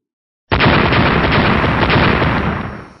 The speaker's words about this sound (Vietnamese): Bốn tiếng nổ liên tiếp vang lên, tiên khí của bốn người Hồ Ngôn đạo nhân